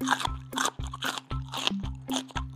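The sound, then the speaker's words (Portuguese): Crisp crunching of a caterpillar munching fresh green leaves comes as a steady series of evenly spaced bites, each a dull thump topped by a bright crackle, with no voices. “Então Alice arrancava as folhas mais novas e deixava ao alcance da lagarta, que agradecia comendo sua refeição matinal.”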